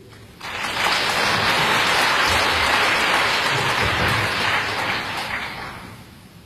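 Audience applause at a concert performance swells quickly into dense, sustained clapping, holds for several seconds, then gradually tapers off.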